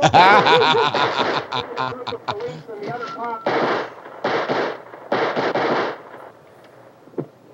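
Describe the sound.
Video game gunfire in a modded zombie game, with several rapid bursts of shots that thin out toward the end. People talk and chuckle over the shooting.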